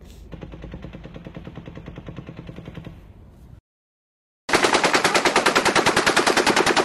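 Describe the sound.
An M240 machine gun fires in a played video: a sustained burst of rapid, evenly spaced shots, a short silence, then a much louder, harsher stretch of rapid automatic fire running to the end.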